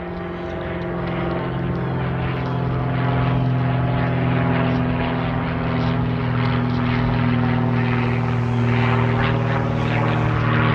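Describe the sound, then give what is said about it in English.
A propeller airplane flies overhead with a steady, droning engine hum rich in low tones. It holds loud and even for the whole stretch, swelling slightly toward the end. “that's an airplane, if you can't tell.”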